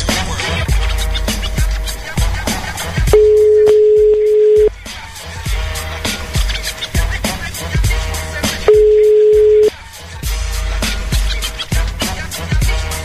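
A telephone line tone heard while placing a call: two sustained, steady-pitched beeps separated by a long gap, set against loud, continuous background sound.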